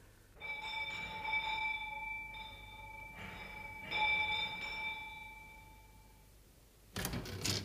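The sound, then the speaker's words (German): A doorbell rings at the mayor's house: a few clear, bright chiming tones that ring on and overlap for several seconds, then fade, with no talk. “Kommt, wir läuten hier.”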